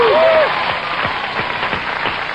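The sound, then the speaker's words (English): A quiz show studio audience breaks into applause, a loud, steady wash of clapping that eases slightly after the first moment and carries on evenly. “Give him some applause.”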